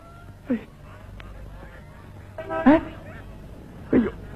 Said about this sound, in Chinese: 都是这群该死的白鹅。